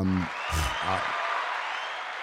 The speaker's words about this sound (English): we should do a round of applause